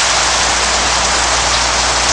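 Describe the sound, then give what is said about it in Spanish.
Steady rain in a sudden downpour, a loud, even hiss of drops that fills the whole clip without breaks or voices. “Está lloviendo otra vez.”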